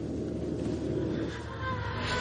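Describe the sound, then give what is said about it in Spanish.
A car driving along an avenue in Washington gives a steady rumble of engine and road noise that holds an even loudness throughout, with no distinct separate events. “El coche de John avanza por una avenida de Washington.”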